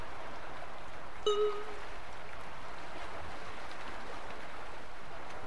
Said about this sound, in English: Can't you hear the waves? Just listen. There's no one here except me and the ocean.